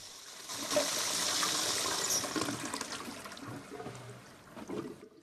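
Water running from a bathroom tap while hands are washed, a faint, steady rushing and splashing that carries on for about five seconds and dips slightly near the end.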